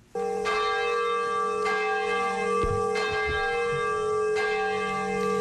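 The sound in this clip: A bell tolls at a memorial ceremony in Nagasaki, Japan, marking the anniversary of the atomic bombing before a minute of silence. A few separate strikes ring out, each followed by a long, steady, humming sustain, with no talk.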